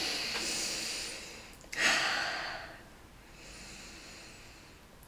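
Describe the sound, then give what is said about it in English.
Three slow, deep breaths are taken to close a relaxation routine, each a soft, airy hiss rising and fading in turn, quiet and unaccompanied by talk. “Right, let's end with three breaths.”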